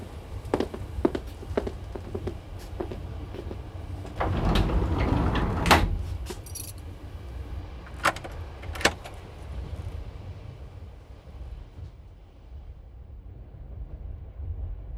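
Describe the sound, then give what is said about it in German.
A train compartment door is locked: a rattle of keys and several sharp metallic clicks, with a louder clattering burst midway, over a steady low rumble of the moving train. “Dann schließen wir jetzt hier ab und gehen zurück zu den anderen, in Miss Cartiers Abteil.”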